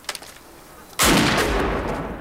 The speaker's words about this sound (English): Discharge your weapon. Discharge your weapon. Do it!